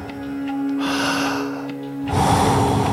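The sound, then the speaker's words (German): Deep breathing during a guided workout: a long, rushing inhale followed by a forceful, noisy exhale, both loud and breathy over a steady low background tone. “Voll einatmen und dann wieder loslassen. Jawohl. Voll einatmen und dann wieder loslassen.”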